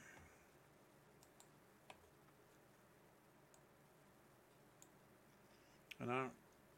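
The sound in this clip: Typing on a keyboard: a few faint, sparse key clicks spread across quiet background hiss, with a brief voice at the end.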